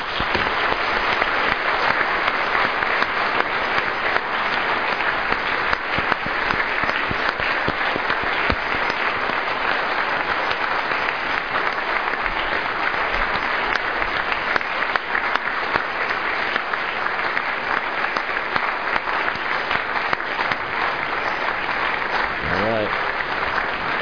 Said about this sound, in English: And let's just give our new members a round of applause.